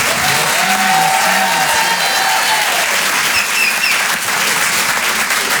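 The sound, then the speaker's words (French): An audience at a comedy club applauds a comedian with sustained, dense clapping. A few brief cheers rise above it, the level stays loud and even throughout, and a voice is faintly heard early on. “Merci beaucoup, merci infiniment. Faites du bruit, s'il vous plaît, pour Antoine Tartrat.”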